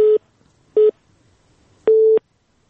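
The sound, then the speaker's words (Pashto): Telephone busy tone after a call is cut off: three steady mid-pitched beeps separated by silence, the first two short and the third noticeably longer, clear and fairly loud. “بله تلیفون لکه چې قطع شو.”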